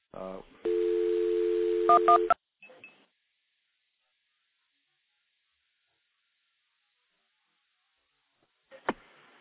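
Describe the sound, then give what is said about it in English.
Telephone tone signalling as a recording is dialed through a stack of five or six trunks: a quick run of tones, a long steady tone, a few short tone pips, then silence and a final click. “I'm going to actually dial a recording through the stack of about five or six trunks that I've got stacked up here.”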